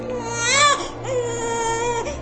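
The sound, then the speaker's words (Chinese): A swaddled infant cries hoarsely in two strained wails, a short rising one and then a longer, drawn-out one, raw and loud. “襁褓中的孩子哭得声嘶力竭”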